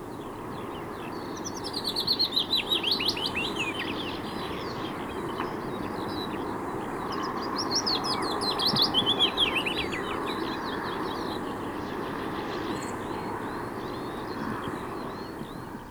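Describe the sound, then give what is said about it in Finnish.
Willow warbler song: high, rapid, sweet warbling phrases ring out twice, one early and one midway. Softer bird twitters sit between them, all over a steady background hiss. “Sitten kuuntelemme pajulinnun säettä.”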